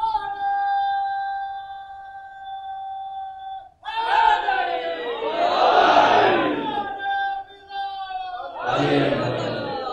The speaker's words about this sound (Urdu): یہ مجھے سمجھ میں نہیں آتا آپ لوگ مل کے نعرہ کیوں نہیں لگاتے۔